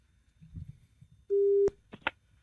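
Ringback tone on an outgoing telephone call, a single steady mid-pitched beep lasting under half a second, set among faint low murmurs and a couple of brief clicks.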